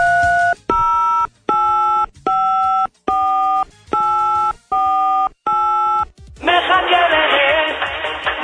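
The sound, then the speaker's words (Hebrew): Telephone dialing tones as a White House staff member places a call: eight loud, evenly spaced beeps in a steady rhythm, then about two seconds of dense, harsh buzzing noise. “אז אחד מצוות הבית הלבן מחייג לאחד מהמקובלים הללו.”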